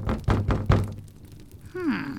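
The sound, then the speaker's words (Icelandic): Knocking on the door of a solitary old woman's home: a few dull, hollow knocks in quick succession, loud and clear with no voices. “allt í einu var bankað á hurðina”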